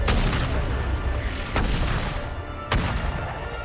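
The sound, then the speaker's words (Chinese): Artillery fire with shells landing: three sharp, loud booms over a continuous heavy rumble, spaced about a second apart. “这是咱们的炮，停止炮击。 太好了，咱们的炮弹发威了，”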